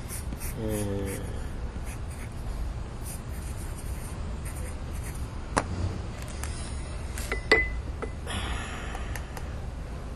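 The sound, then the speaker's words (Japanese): A pen scratches steadily across paper as someone writes by hand while talking, with a brief stretch of voice early on and a couple of sharp ticks later over the soft, continuous scratching. “僕はずっと喋りながら書いてて”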